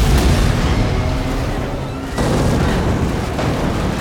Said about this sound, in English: They take shelter behind an armored vehicle, which immediately explodes.